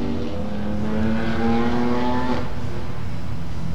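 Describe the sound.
Race car engines, BMW performance cars on a road course track, hold a loud, steady, buzzing roar that climbs slightly in pitch before breaking off about two-thirds through, leaving a broad rumbling wash.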